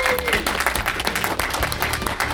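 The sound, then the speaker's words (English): Audience applause at the end of a talk: a short burst of dense, lively clapping from a crowd, busy and fairly loud throughout. “Please, ladies and gentlemen, would you give a huge round of applause to Ms. Cheryl and Finn.”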